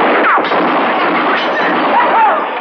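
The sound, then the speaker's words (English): Gunfire from guns being shot off by Texas men: a loud, dense, continuous roar of shots with no separate bangs standing out, steady in volume throughout. “Oh, them Texas boys. They sure do love to shoot off them things.”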